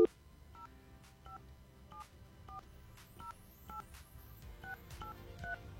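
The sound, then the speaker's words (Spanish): Telephone keypad tones as a number is dialed to reach a contest winner: a string of short, clipped two-tone beeps at an uneven pace, each clearly distinct, over a low, murky rumbling background. “Ahí estamos marcando, perfecto. A ver si nos contesta”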